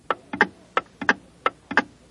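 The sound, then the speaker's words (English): A pendulum clock ticks in a steady, even rhythm of sharp clicks, many falling in quick pairs like a tick-tock, with nothing else over the quiet background. “There was a time when the workings of a clock represented physically our system of time. The swing of a pendulum ticked off the seconds”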